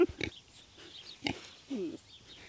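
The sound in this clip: Hand-raised piglets on a farm grunting as they come close: a few soft, short grunts and snuffles in an irregular rhythm, fairly faint.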